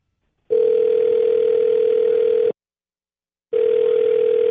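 A telephone call is dialed and rings out with a steady, low, buzzing tone. Two long tone bursts are separated by a second of silence, with no voices.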